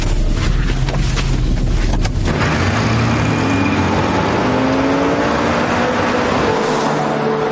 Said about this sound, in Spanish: En la autovía, Sara va conduciendo y de vez en cuando mira rápidamente a Claire.